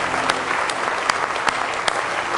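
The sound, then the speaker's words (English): A church audience claps hands in praise: dense, steady applause with louder accented claps falling on a regular beat throughout. “Give him a good hand clap of praise if you love him this morning.”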